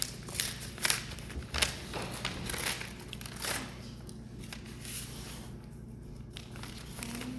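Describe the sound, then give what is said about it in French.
Paper rustles and tears as sealed bid envelopes are opened in front of council members at a municipal meeting. A faint series of crinkles and rips comes without any talk. “Donc, en présence des conseillers, j'ouvre les enveloppes.”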